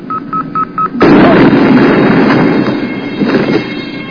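A sci-fi torpedo explosion strikes a starship under attack: four short, even, high alert beeps, then a sudden loud blast that settles into a long, heavy rumbling roar.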